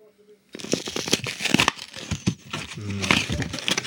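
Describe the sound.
Wrapping paper crinkling and tearing on Christmas morning: dense, continuous rustles and rips begin after a short quiet start and stay fairly loud throughout, with a voice briefly audible underneath.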